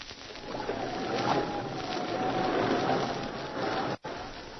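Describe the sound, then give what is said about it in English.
The sailing ship Mirabelle beats against a nor'easter past Cape Lisburn toward Point Barrow, Alaska. A steady rushing roar of wind and sea carries a thin, wavering whistle and cuts out briefly near the end. “Now the wind changed, and the Mirabelle fought against the nor'easter, past Cape Lisburn, on to Point Barrow, the top of Alaska.”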